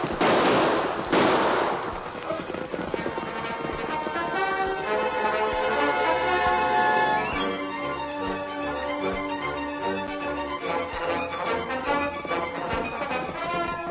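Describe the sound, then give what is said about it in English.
Gunshots fired over pursuing riders' heads: a pair of sharp, loud bursts at the start, then dramatic orchestral music that carries on steadily to the end. “Use your gun, Tonto. We'll shoot over their heads.”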